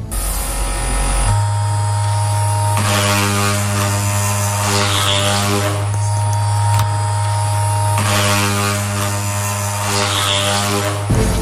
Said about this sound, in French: Un rasoir. Eh non, c'était un sextoy.